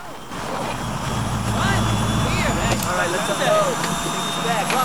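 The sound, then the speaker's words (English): Engines of a twin-prop plane starting up on a remote airfield at dawn, giving a steady droning roar that swells slightly and then holds at a fairly loud level throughout. “As dawn breaks, a twin-prop plane starts its engines on a remote airfield.”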